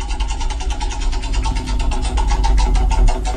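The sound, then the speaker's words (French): A prize wheel spins at a game draw, giving a rapid, steady run of ticking clicks that carries on through the whole stretch at a fairly even pace. “on lance la roue.”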